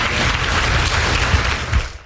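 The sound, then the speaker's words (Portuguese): A church audience applauds in dense, steady clapping that fills the whole moment at an even level, with no voices on top. “Vamos dar uma grande salva de palmas para o Senhor Jesus.”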